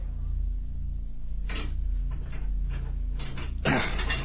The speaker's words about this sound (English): Approaching the morgue, Blanchard wrenches open the port.